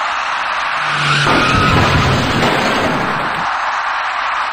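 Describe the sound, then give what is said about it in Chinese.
Tires skidding and a car roaring as a white car turning left at an intersection collides with an electric bicycle, a harsh, continuous noise that swells in the middle and eases toward the end. “然而，一起相撞事故很快就出现在了路口北侧的路面上。您注意看，一辆由西向北而来的白色小客。”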